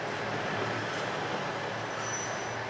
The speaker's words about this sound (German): Wir nehmen die Noto Railway ganz im Westen Japans.